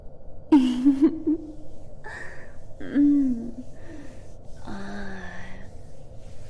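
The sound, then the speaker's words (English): Shuddering, wheezy breathing: several separate gasping, voiced breaths with a moaning, quivering tone, spaced apart against a quiet background. “You're shuddering as you breathe”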